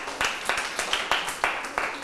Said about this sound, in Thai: เยี่ยมเลยครับปรบมือให้เพื่อนด้วยครับ